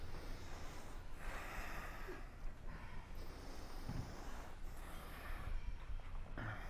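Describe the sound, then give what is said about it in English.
Deep ujjayi inhales drawn through a constricted throat make slow, airy hissing breaths, rough-textured and fairly quiet, repeating with no talk. “Like really pull it in. You know how I can liken generating ujjayi breath”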